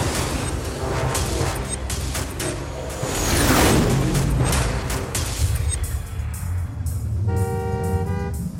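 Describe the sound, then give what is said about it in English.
Road traffic with cars driving toward the listener: a steady, loud wash of engine and tire noise that swells midway, followed near the end by a sustained horn-like tone over the rumble. “Oh! What's with the traffic today?”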